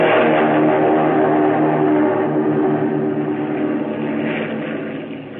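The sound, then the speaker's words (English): A Japanese Zero fighter plane takes off down a runway: a loud, steady engine drone with a dense low harmonic hum, holding for several seconds, then slowly easing off, with no voices. “He gunned her. And that first Japanese Zero to be flown by an American sped down the runway and took the air.”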